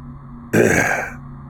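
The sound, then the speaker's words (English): A man clears his throat once, a short, rough, breathy rasp lasting under a second against otherwise quiet surroundings. “He clears his throat and seems to think about where to begin.”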